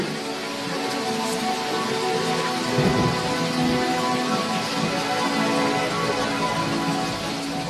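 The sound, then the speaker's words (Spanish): Steady, loud rain from an approaching thunderstorm hisses evenly throughout, with a brief low swell of sound midway. “Y además, esta tormenta estaba cooperando.”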